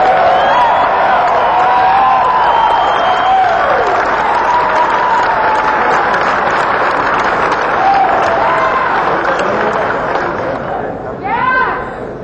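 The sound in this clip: Applause greets an acoustic upright string bass player at a music show: sustained loud clapping with cheers and whoops, with voices over it. It thins near the end and then briefly swells again.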